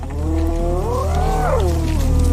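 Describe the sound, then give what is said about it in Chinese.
A lion feeding gives a drawn-out harmonic growl that rises in pitch and then falls, layered over a steady low rumble that runs through the whole clip. “狮子又开始吃了。”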